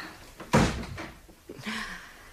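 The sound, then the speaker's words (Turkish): A door being shut at home makes one loud, firm thud near the start, followed by a few softer knocks and rustles. No voices are heard. “Önce kapıyı kapatayım.”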